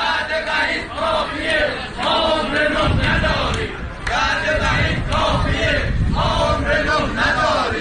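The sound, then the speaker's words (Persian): Protest chanting by retired telecom workers in Tabriz on a Monday, loud rhythmic slogans from many voices repeated in short phrases, with a brief lull partway through before the chant resumes. “صدای اعتراض بازنشستگان مخابرات تبریز در روز دوشنبه.”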